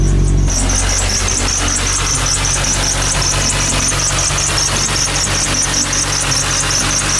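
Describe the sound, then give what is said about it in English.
Car engine drive belt squealing under the hood: rapid, rhythmic high-pitched chirps repeat steadily over a loud, continuous engine hum with no talk. “So you've probably heard that sound before. It's indicative of a belt. You hear it during startup and then maybe it goes away after the engine warms up”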